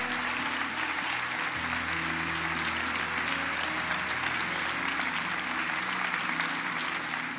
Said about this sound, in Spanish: Come on, fuerte aplauso con Jesús en este lugar, Comunidad de Fe.